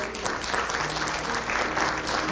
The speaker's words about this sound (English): Just give the Lord a good clap off.